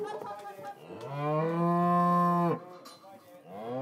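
A calf moos during a cattle drive run by an agricultural cooperative. A long, loud, tonal bellow with a strong harmonic ring holds for about one and a half seconds, then stops abruptly, and another moo begins just before the end.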